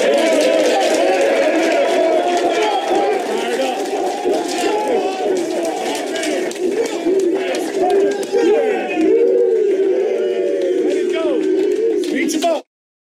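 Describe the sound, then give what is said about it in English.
Colts football players cheer and shout in their locker room after a win in Las Vegas. Many loud voices overlap in a continuous, rowdy din that cuts off abruptly at the end. “That's the Colts locker room after they win in Las Vegas. Those guys are fired up.”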